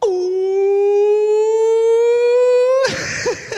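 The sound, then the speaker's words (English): A woman's voice imitating a wailing siren during a church service, holding one long, loud, high 'ooh' for nearly three seconds with a slight upward drift, then breaking off into rougher, noisy sound. “When she starts sirening off like that, man, God's moving.”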